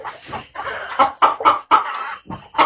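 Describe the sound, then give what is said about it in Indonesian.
Chickens and a rooster clucking in many short, fairly loud squawks and clucks in quick succession, with no speech. “Bantu saya membariskan ayam-ayam ini ya. Ayam-ayam ini harus diberi pengarahan. Kepada ayam jantan 01, mana laporan jumlah telur seminggu ini?”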